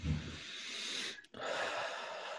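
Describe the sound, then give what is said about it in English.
A deep breath drawn in and let out, heard as a quiet, airy rush of air, then a brief silent pause, then a second long, steady breath. “So I invite you to take a deep healing breath”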